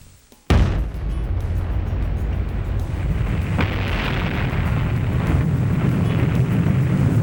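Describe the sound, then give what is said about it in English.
A nuclear weapon test explosion at the Nevada Test Site: one sudden, sharp blast, then a loud and sustained roaring rumble that continues to the end. “We tested the nuclear weapons of the Nevada test site. 5, 4, 3, 2, 1.”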